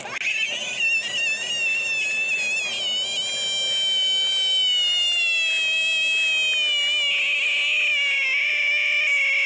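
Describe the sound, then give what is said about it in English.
A frog shrieks when touched, making a loud, sustained, high and wavering cry with rich harmonics. It sounds much like a cat's wail and continues unbroken throughout, with a slight wobble in pitch and no talk. “Yeah, but no, it's actually a frog shrieking because it doesn't want to be touched.”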